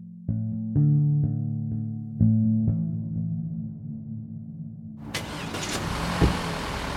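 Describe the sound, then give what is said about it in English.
A car driving through Bucha in Ukraine: a few regular low engine thumps over a humming idle, then a sudden, louder broad rush of engine and road noise that carries on to the end. “So we're driving through Bucha away from the school”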